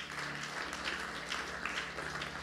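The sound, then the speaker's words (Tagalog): A church audience claps steadily in applause for the Lord during a service, a faint, dense, even patter throughout. “Palakpakan mo si Lord.”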